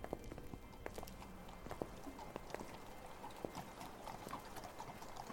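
Hooves of a horse drawing a cab through London streets clip-clop in a steady, continuous rhythm, many quick, fairly faint knocks without pause.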